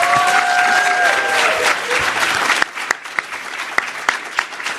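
Audience applause welcoming a panelist at a City Club of Chicago panel on neighborhood equity: dense, steady clapping that thins after a couple of seconds into scattered individual claps fading out.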